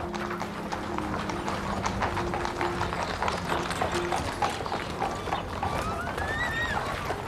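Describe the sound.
Hooves clip-clop as a horse-drawn cart rolls out through a town gate, many even, steady hoofbeats over a rumbling background.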